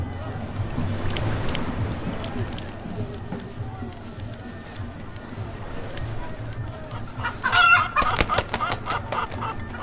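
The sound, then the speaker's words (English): Farmyard animal calls from a sound-identification game, two goats, a sheep and a duck with no chicken. They come faintly through people talking, then a louder burst of harsh, rapid calls rises near the end. “Yeah, no chicken, right? Pretty sure there's no chicken there. Just two goats. a sheep and a duck.”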